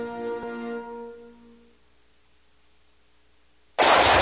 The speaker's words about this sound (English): Ooh, nice shooting.